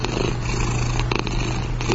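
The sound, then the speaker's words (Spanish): A cat purring: a continuous low, rumbling vibration that holds steady throughout, set against a constant hiss. “Este es el ronroneo de los gatos, que es algo verdaderamente fascinante.”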